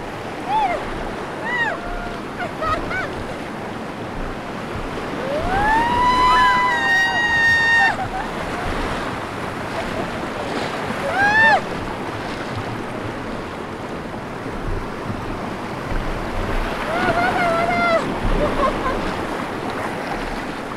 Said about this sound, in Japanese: ゴツゴツという音はイカダが浅瀬に当たる音です。